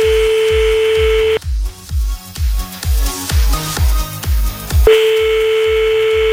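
Telephone line tones during a call to a listener: a steady tone, then a stretch of quick, pulsing line signals, then the steady tone returns, all over a rhythmic low thumping beat.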